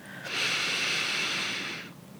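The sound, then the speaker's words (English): A single long, deep breath drawn in to relax the body: a steady, airy hiss that swells quickly, holds for about a second and a half, then fades. No voices. “And to relax the body, we will take 3 deep breaths. So take the first deep breath in.”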